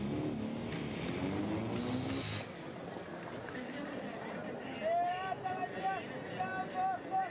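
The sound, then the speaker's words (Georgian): A Chevrolet Camaro convertible accelerates, a harmonic engine drone that climbs at first and then drops away. A voice speaks later over fainter background sound. “კამაროს კაბრიოლეტი თითქოს ერთმანეთისთვის არიან შექმნილები. ისეთი მაგარია, რომ გინდა სიჩქარეს მოუმატო.”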